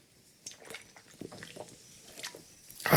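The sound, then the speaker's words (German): Someone takes a sip of a drink, making faint small wet slurps and swallowing clicks scattered over a few seconds, with a louder burst of noise at the very end. “Entschuldigung, ich brauche einen Schluck.”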